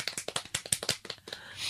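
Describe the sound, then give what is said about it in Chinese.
An audience gives a small round of clapping to welcome a singer. Separate claps come quickly and unevenly, stay faint, and thin out toward the end. “我哋都俾啲掌声鼓励下雨珊啦。”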